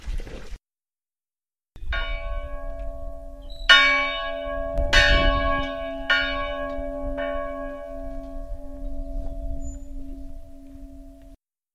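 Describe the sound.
A church bell rings in a bell tower: a few loud strikes, each leaving a long, humming resonance of layered overtones that lingers and slowly fades, with no voices.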